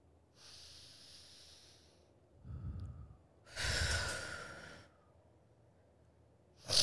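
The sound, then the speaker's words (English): Slow, deep breathing during a relaxation moment: a few loud, airy breaths in and out, some with a snorting, sighing edge, spaced by short pauses, with no talk. “Let's join us here for a minute right now of just nice deep breaths and bring your heart rate down, you know.”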